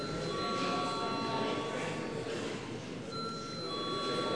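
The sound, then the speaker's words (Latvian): An electric bell rings to call a parliamentary vote, a steady, fairly faint metallic ringing tone held for several seconds over low background noise. “lūdzu zvanu.”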